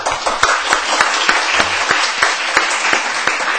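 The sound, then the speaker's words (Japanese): An audience applauds at a Japanese meeting after a motion passes unanimously, giving thanks for a year's work: dense, even, continuous clapping with many hands, loud and steady throughout, with no speech over it. “拍手を持って”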